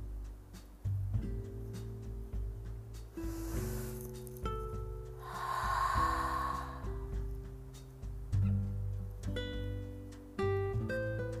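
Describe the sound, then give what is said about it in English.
A deep breath taken while soft music plays, heard as two airy, hissing rushes, a brief one and then a longer, fuller one, rising over sustained keyboard-like tones. “So you can close your eyes and take a deep breath.”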